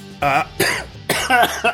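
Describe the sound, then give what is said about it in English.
A person coughs after choking on their own breath: several loud, harsh, throaty coughs in quick, uneven succession, with raspy voiced edges between them. “I've choked on my own breath.”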